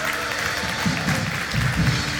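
Applause from a church audience at City Church welcoming a pastor to the stage on a Sunday morning: a short burst of steady clapping with some low rumbling underneath.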